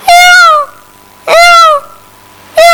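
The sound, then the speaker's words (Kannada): A voice imitates a cat meowing, as for a cat sitting on a house's tiled roof: two loud, drawn-out, wavering meows about a second apart, then a third starting at the end, with no talk. “ಆ ಮನೆಯ ಹಂಚಿನ ಮೇಲೆ ಒಂದು ಬೆಕ್ಕು ಕುಳಿತುಕೊಂಡಿತ್ತು. ಆ ಬೆಕ್ಕು”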